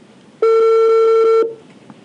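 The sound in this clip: Telephone ringback tone on an outgoing call that goes unanswered: a single steady, buzzing electronic ring lasting about a second, then quiet.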